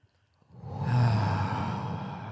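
A slow, deep exhale during a guided breathing exercise: a loud, steady rush of breath that starts after a brief silence and carries on evenly for nearly two seconds, with no talk over it.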